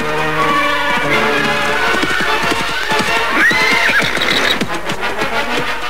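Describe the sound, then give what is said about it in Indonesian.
A horse-drawn carriage comes to a halt with many clip-clop hoof beats. Midway, the horse gives a loud whinny. The sound stays strong throughout over a steady rumble. “Kereta kuda itu berhenti.”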